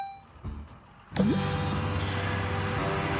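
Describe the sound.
Steady engine drone of a truck driving along a road in a video game. It starts after a quiet second with a short rising whine, then runs on as a continuous hum.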